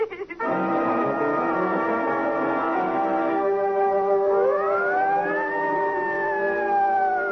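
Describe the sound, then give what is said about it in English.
Sirens howling through a city street after a man's death, a loud sustained wail of several layered tones that hold steady and then sweep upward, continuous for the whole stretch with no talk. “Then the sirens howl because a man is dead, and their cry tears a path through the wilderness of the city.”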